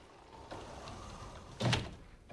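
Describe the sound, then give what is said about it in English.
A sliding door is pushed shut in a kitchen: a soft rolling sweep ends in a brief, louder knock as it closes. The sound is quiet overall, with no voices. “Billy slides the door shut, wearing a concerned frown.”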